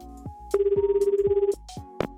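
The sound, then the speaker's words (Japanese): A telephone rings on an outgoing call, one warbling, rapidly pulsed ringback tone lasting about a second, set among short clicks and quieter tones. “実際のお父さんに電話するということで、米澤のお父さんに電話したいと思います”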